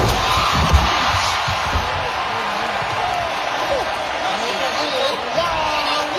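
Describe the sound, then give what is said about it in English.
A packed stadium crowd in Spain roars as a half-ton bull charges a performer and leaps a barrier into the stands, a dense, steady wall of noise that does not let up. “A half-ton bull suddenly leapt over a barrier and went straight for the audience at a packed stadium in Spain. Here's what it sounded like when the bull charges at the performer first and then just abruptly changes and jumps over into the audience.”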